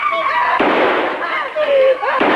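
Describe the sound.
A pistol is fired wildly in a dramatic scene, giving a few sharp, loud bangs over a dense, noisy background with a voice present.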